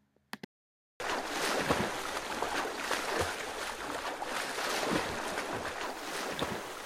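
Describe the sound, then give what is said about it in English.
Water sloshing and splashing as someone swims, a continuous churning wash with recurring surges that suggest repeated strokes. A few faint clicks come first, followed by a brief silence before the water sound starts. “This is the sound of somebody swimming.”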